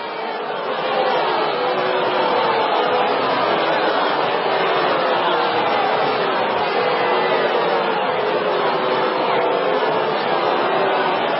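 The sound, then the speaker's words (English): An excited studio audience reacts with a steady, dense wash of crowd chatter and murmuring that holds at an even, fairly loud level throughout. “Do we have an audience reaction to that?”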